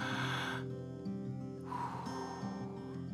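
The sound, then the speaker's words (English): A slow, deep, airy breath taken during a guided prayer, heard alone over soft, sustained musical tones. “Let's breathe. You ready?”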